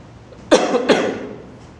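Two sharp coughs from a person, one right after the other, each a harsh burst that trails off quickly, with no talking around them.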